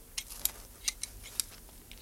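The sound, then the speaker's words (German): Hand shears trimming a yew hedge in a garden give faint, crisp metallic snips in an irregular series over a quiet background. “Das ist schön, wie du die Taxushecke da schneidest”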